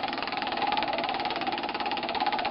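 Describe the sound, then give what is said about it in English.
A big prize wheel spins with a steady, dense whirring rattle that holds an even level throughout and never slows or stops. “it's a big wheel, that. Right. It's still spinning.”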